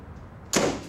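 A door is slammed shut in a bedroom: one sudden, sharp bang with a short fading tail over quiet background noise.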